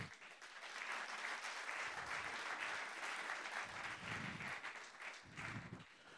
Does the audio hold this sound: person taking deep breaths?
no